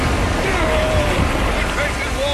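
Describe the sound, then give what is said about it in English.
Ocean waves crash over a small boat overloaded with five grown men and cargo as it reaches the breakers. A loud, continuous rushing roar with wind noise runs throughout. “We'll be sunk to the bottom after one wave. And here they come. Brace yourselves.”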